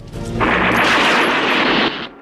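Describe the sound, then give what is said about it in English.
A rifle shot hits an electricity junction box high on a wooden pylon in a Rambo film: one loud, broad blast that holds steady for over a second, then cuts off sharply and leaves a lower, fading tail. “Clutching his rifle, he moves along the wall towards the end of the building and peers down into the street. Rambo shoots at an electricity junction box high up on a wooden pylon.”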